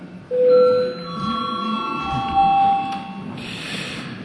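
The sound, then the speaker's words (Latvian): An electronic bell rings to call members of parliament to register: sustained, overlapping tones that hold for several seconds over a low, steady background hubbub. “Lūdzu zvanu. Lūdzu reģistrācijas režīmu.”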